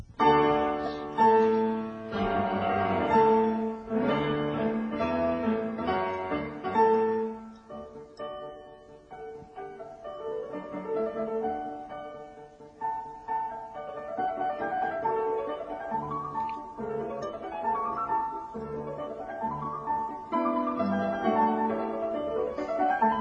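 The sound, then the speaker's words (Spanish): A classical sonata for two pianos, with fast, bright passages where both instruments interlock in rapid runs and chords. The piano sound stays unaccompanied and moderately loud, easing into a lighter texture midway before busier figures return. “a 10 minutos de Mozart, concretamente a la sonata K448 para dos pianos, que suena así.”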